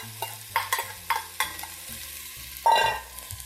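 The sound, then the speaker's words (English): Minced ginger and scallions are stir-fried in hot oil, with several sharp scraping stirs followed by a brief, louder burst of sizzling near the end, all fairly quiet and without talk. “Here goes my minced ginger. Stir that up. Get it good and cozy with the oil. Here are my scallions.”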